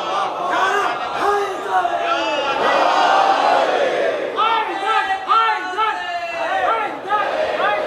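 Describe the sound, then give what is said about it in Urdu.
A crowd at a religious gathering chants religious slogans: many voices shouting in loud, overlapping bursts that swell and fall in waves, sustained throughout. “آپ ذرا سا اپنے جذبات پہ قابو رکھیں۔ میں نعرہ لگانے کو منع نہیں کر رہا ہوں”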